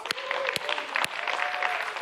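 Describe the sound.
A church audience applauds, with a fairly faint, steady patter of clapping and a few sharper claps standing out. A sustained tone runs beneath the clapping.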